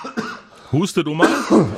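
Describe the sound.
Coughing from someone who has choked on something they swallowed, several rough coughs with voiced throat sounds between them, moderately loud.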